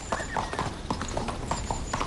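Horse hooves clip-clop as a horse is ridden, making a quick, steady run of many crisp, evenly spaced hoof beats at moderate loudness throughout.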